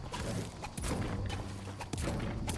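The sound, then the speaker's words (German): Gunfire in a video game: dense, loud volleys of shots with a few sharper, heavier hits standing out, running continuously through the whole stretch. “Gegner, Gegner. Uh! Wo? Auf mich wird geschossen.”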